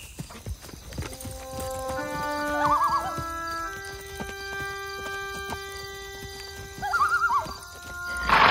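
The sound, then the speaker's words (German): Horses ridden all day toward a town: steady rhythmic hoof clip-clops throughout, with two high whinnies, one early and one near the end, over soft sustained music. “Steig auf. Sie ritten den ganzen Tag und bei Einbruch der Dunkelheit waren sie ziemlich nah an der Stadt.”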